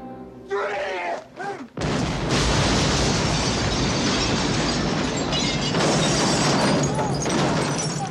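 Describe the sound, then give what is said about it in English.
A series of big explosions forms a dense, continuous roar of deep, rumbling blasts. It starts abruptly about two seconds in and stays loud and unbroken to the end. “that just sounded like a bunch of big explosions.”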